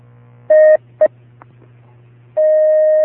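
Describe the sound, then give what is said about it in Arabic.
Telephone tones of an incoming call connecting over a low steady hum: two short beeps, then a long unbroken tone at the end, loud and clean. “نأخذ اتصالا هاتفيا.”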